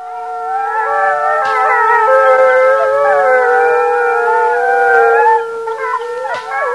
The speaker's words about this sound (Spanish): El gemido de los grillos se ahogó con el gruñido incesante de los perros.